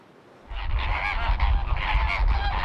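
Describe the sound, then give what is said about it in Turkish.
Migratory birds calling with goose-like honks, caught for ringing in Istanbul, a dense run of loud, nasal, overlapping calls that start abruptly after a brief quiet moment and continue without pause. “Yakalanan göçmen kuşlar halkalanarak yeniden doğaya bırakılıyor.”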